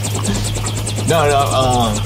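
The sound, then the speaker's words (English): A helicopter's rotor chops in a steady, rapid rhythm over a constant low engine hum, with a voice sounding over the second half. “Yeah, give us a report from the helicopter.”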